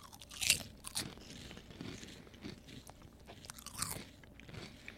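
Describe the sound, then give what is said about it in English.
Someone bites and chews Cheeto-flavored Lay's potato chips, making faint, crisp crunches in a few sharp bursts separated by quieter chewing. “it tastes like a Lay's, Lay's chip, really.”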